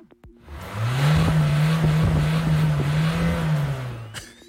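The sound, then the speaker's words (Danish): Citroën Berlingo car engine running with a loud, steady low drone that holds a nearly constant pitch for about three seconds before tapering off. “Det er en Citroën Berlingo.”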